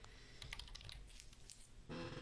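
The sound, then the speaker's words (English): Typing on a computer keyboard, a quiet run of rapid, irregular key clicks with no pauses. “Typing.”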